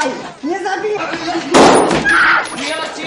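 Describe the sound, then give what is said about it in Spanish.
A soldier fires a single gunshot point-blank into the back of a prone man's neck in a wartime Holocaust setting. The loud, sharp burst cuts through a speaking voice and decays over about a second. “le coloca la bota sobre la espalda y le dispara bocajarro en la nuca”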